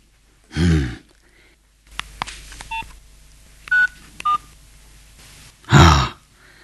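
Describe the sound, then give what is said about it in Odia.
Telephone keypad tones as a number is dialed: a few short, clear beeps with small clicks between them. Two louder, low breathy bursts come before and after the dialing. “ଏଇ ନମ୍ବରରେ phone କରିଦେ।”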